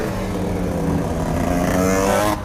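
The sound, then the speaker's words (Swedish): A group of motocross mopeds passes with a loud, continuous buzzing engine drone full of harmonics. The drone holds steady throughout and cuts off abruptly at the end. “Nu kom det ett gäng crossmoppar.”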